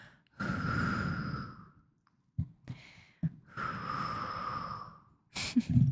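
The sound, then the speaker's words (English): A mother blows air on her child's neck in two long, breathy blows, each with a faint whistling tone, separated by brief soft sounds. “What about if I blow on your neck?”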